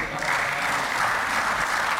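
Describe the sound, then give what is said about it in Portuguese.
Applause rises from the parliament benches of a regional assembly, where deputies and members of the government clap together in a dense, continuous, even patter. “palmas das bancadas do PSD, do CDS e do PPM e também do Governo”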